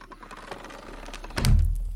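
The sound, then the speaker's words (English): A door swings shut as people come in, ending in one heavy low thud that holds for a moment over soft background noise. “And just as Geraldine and Amira and Winnie all come in, they close the door behind you.”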